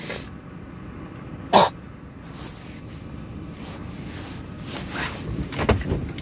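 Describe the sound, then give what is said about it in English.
A single sharp cough clears phlegm from the throat, brief and loud against a steady low background hiss, followed by faint rustling. “Excuse me. Oh, okay, that's better. I had a loogie.”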